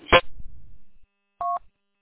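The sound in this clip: A single keypad dialing tone from a Grandstream VoIP Wi-Fi phone: one short, steady two-pitch beep, preceded by a brief handling clunk and rustle, with no voices.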